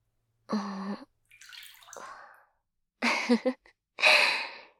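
Water is poured to rinse someone in a bathing setting, coming as a few faint splashing pours separated by short silent pauses.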